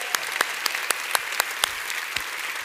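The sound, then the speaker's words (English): Applause from a church audience welcoming its campuses and online viewers: a steady patter of many hands clapping at an even level, with no voices standing out. “We want to welcome all our campuses out there and all the people watching online. Let's give them a big hand out there.”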